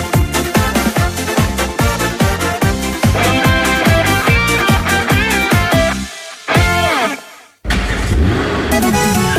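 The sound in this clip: A car engine that is running badly revs in rapid, rhythmic sputtering pulses, loud and steady for several seconds. It then cuts out briefly twice and catches again.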